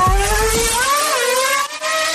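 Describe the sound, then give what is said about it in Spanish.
A car engine revs as the car accelerates away in first gear, a loud continuous whining drone over a low rumble in the opening second, its pitch drifting slightly as the revs build. “Ahora, nos abrochamos el cinturón. Ponemos la primera velocidad. Pisamos el acelerador.”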